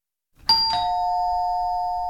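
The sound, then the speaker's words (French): A doorbell rings at a front door with two bright chime notes in quick succession, the second, lower note ringing on and sustaining evenly until the end, with no voices. “Quelqu'un venait de sonner à la porte, mais je n'avais aucune intention d'aller ouvrir.”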